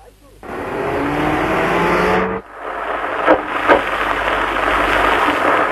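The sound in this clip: A bus on the road gives a loud, steady engine and road roar that dips briefly partway through, then returns with a couple of short, sharper surges.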